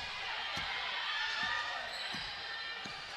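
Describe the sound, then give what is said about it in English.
A basketball dribbled on the court during a women's basketball game in the third quarter: several dull, low bounces at an uneven pace under steady crowd noise and talk. “She dribbles between the circles.”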